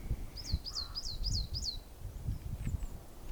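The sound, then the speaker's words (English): Birds calling in a spring garden looking out over green hills: a quick run of five bright, high chirps, each sliding downward, then a few fainter calls, all over a low, gusty rumble. “You might be able to hear all those birds. Quite excited that it's spring by the sounds of it.”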